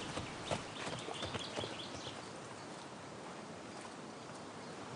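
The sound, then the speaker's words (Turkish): Hoofbeats of three horses riding into a camp, with a few sharp clip-clop hits in the first two seconds, then a steady faint rushing noise. “Orman, üç atlı tozu dumana katarak kamp alanına geldi.”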